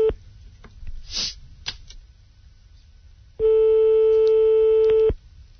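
A telephone call is placed: a few clicks and rustles come first, then a single steady telephone line tone sounds alone for nearly two seconds before it cuts off.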